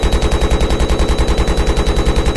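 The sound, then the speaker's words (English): Rapid automatic gunfire from a weapon in a video game: a steady stream of many sharp, evenly spaced shots running through the whole clip, loud and with no voices. “Shoot it again. Try it. It takes a while to reload, dude.”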